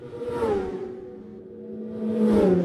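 Racing motorcycles on a road race course tear past at speed. Two shrill engine whines each swell and drop in pitch as a bike goes by, with a lower engine drone filling the gap between them.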